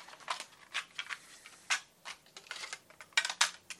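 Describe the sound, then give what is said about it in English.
A tape recorder clicks and rattles as it is reloaded with a new tape. Many short, sharp mechanical clicks come at uneven intervals, fairly faint and with no talk over them. “I'll just put a new tape in.”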